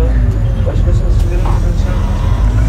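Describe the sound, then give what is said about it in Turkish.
Low, steady engine rumble of a bus moving off, a continuous droning hum that stays at an even level throughout. “Evet, şu an itibariyle hareket etti otobüsümüz.”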